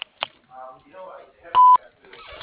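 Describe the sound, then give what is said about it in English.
A voicemail answering machine beep: one loud, steady, mid-pitched tone lasting about a fifth of a second, with sharp clicks and brief voice fragments around it. “please leave a message at the beep”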